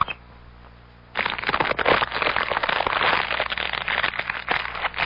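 Crackling fire: a dense, loud run of many irregular pops and snaps that bursts in after about a second of near quiet, then carries on steadily to the end.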